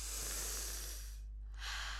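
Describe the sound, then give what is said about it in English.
Breathing in and out during a guided exercise in which arms are raised overhead and lowered: a soft, faint airy rush of breath, a brief pause, then a second breath. “Now breathe in and raise your hand above your head. Breathe out and put your hand down. Again.”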